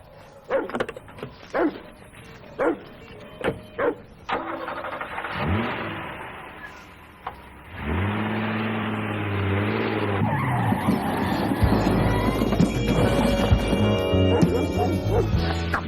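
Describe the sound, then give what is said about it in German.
A car starts and drives off with skidding, squealing tyres: a few sharp knocks come first, then the engine swells and roars loudly and continuously as the tyres screech, with a dog barking. “Fahren Sie Ihren Wagen weg, Mann.”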